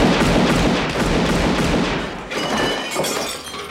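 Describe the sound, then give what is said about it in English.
Gunfire rings out in a film scene where one man shoots another in the foot. Loud, dense, crackling blasts run together with a shattering, breaking quality, sustained across the whole moment. “He shoots him in the foot.”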